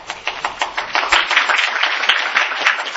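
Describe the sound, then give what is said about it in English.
A round of applause from a group fills the whole three seconds with a dense, steady patter of many hands clapping, fairly loud and without talk. “Round of applause for everybody”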